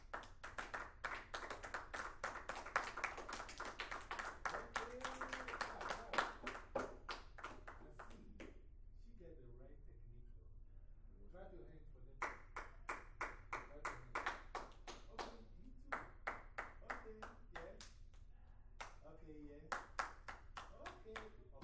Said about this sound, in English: Everybody clap your hands. Everybody clap your hands, let's see. Clap your hands.